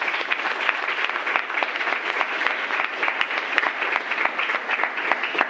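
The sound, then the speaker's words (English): Audience applause welcoming a speaker at a talk, a dense, steady wash of many hands clapping that holds at an even loudness for the whole stretch, with no voices standing out. “can we give him a warm welcome, please?”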